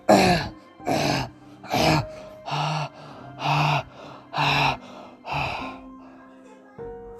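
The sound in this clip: A man coughs over and over in a steady series of harsh, throaty bursts, with breathy gasps between them. The coughing keeps an even rhythm across the whole stretch.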